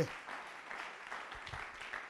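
Applause for Jesus from a church audience during a sermon: brief, faint, scattered clapping that stays low and even throughout.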